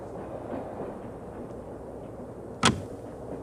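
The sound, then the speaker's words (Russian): A train compartment door lock gives a single sharp click over the steady low rumble of a train moving at night. “Открывается дверь купе, заходит проводник с подносом.”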